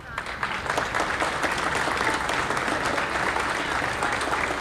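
Applause from a gathered crowd: dense, continuous clapping that rises quickly and stays loud and even for about four and a half seconds.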